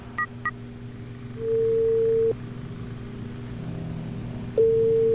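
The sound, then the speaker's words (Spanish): A telephone call is placed: two short dial-key beeps, then a steady low ringback tone that sounds, stops and starts again near the end. Faint background hum continues throughout, with no talking. “Ya, ya, ya, Estoy llamando, estoy llamando.”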